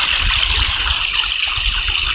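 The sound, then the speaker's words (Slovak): A mountain stream babbles down a valley where marsh marigolds bloom. Its continuous, full water noise gurgles and splashes without pause, carrying a steady low rumble beneath a bright hiss. “ktorý si to žblnkoce. Je krásny. Kvitnú tu záružlia, no, je to také šťastie, ktoré tečie dole dolinou”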